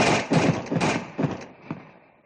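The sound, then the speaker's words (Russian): A volley from the first rank of fusil muskets, a ragged run of loud, booming blasts in quick succession that rumble and then fade away. “Фузеи первой шеренги, изрыгнув пламя и дым, плюнули в наступающих горячим свинцом.”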